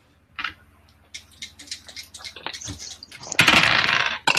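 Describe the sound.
Dice rolled for a check in a tabletop role-playing game: a few light clicks and taps, then a louder burst of rattling clatter near the end.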